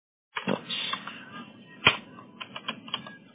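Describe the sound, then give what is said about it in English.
Quick keystrokes on a keyboard come in an irregular run of moderately loud clicks, with one sharper hit partway through. “No, I'm laughing at my typing inability today.”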